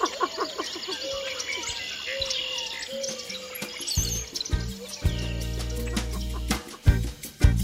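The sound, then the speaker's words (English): Birds singing in a dawn chorus recorded in February, with many overlapping chirps, tweets and short songs throughout and some low rumbling bursts in the second half. “Lang Elliott recorded this dawn chorus in February for his sound project, The Music of Nature.”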